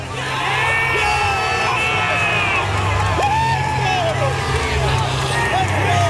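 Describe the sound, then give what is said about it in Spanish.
Canada's football players shout and whoop together in a team huddle, loud overlapping yells and cheers with sliding pitched cries. “Mira, es el sonido de la piña de los futbolistas de Canadá.”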